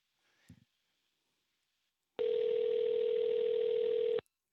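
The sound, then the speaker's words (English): A ringback tone on an outgoing phone call to a radio station in Sacramento: after a faint click, one steady buzzing tone of about two seconds sounds alone, then stops. “See if they answer. Oh, it's ringing.”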